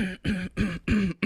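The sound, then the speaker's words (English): Throat clearing as a quick run of several short, rough, voiced bursts at an even rhythm, each loud and separated by brief gaps. “I just cleared my throat.”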